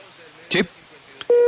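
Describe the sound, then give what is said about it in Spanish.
A dropped phone call: a short burst of noise and a click, then a steady low beep tone, the busy signal, as the line cuts off. “tuvimos un corte en la llamada con la periodista Marta Bernal”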